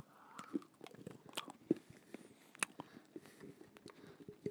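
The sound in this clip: Biting into and chewing a chicken-flavored snack gives many faint, crisp crunches and crackles in an irregular rhythm, with a few sharper snaps standing out.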